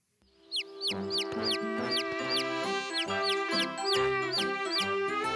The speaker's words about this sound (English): We still have a lot of food, baby chicks. Wait, come back. Let me give you some more food.